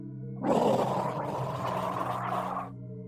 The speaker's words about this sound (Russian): Я собрался спускаться, как вдруг откуда-то из глубины тюрьмы раздался яростный крик. А даже не крик, а рёв. В нем было столько злости, что я на несколько секунд остолбенел от страха.